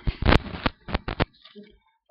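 Pages of a Bible are quickly opened and turned, making a rapid run of crisp paper flips and rustles. The bursts come in an uneven rhythm, then soften into faint shuffling.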